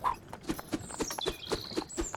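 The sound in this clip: A horse-drawn cart setting off, its steady clip-clop of hooves tapping out a quick, even rhythm, faint and alone.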